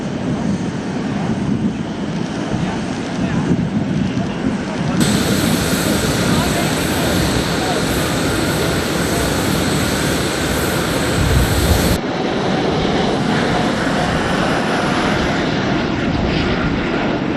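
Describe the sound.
Airplane departing from an airport in Cairo, a loud, continuous engine roar that holds steady from start to finish with no clear break.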